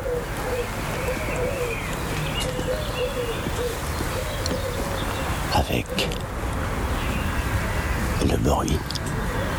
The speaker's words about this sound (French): une multitude d'oiseaux cohabitent.